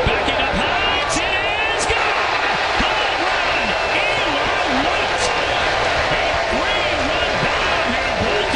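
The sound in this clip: Red Sox fans cheer a deep drive to left field at a baseball game in Baltimore: a dense, steady crowd roar that stays loud throughout, packed with overlapping voices.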